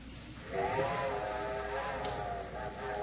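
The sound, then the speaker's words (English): A steam train whistle sounds from the railway at Moore's Junction: a steady, sustained harmonic tone with breathy steam hiss. It swells in after about half a second and holds, moderately loud, until the end, with no talk over it. “I'm afraid that's my train, Throckmorton. Yeah, that's right. Whistling from Moore's Junction.”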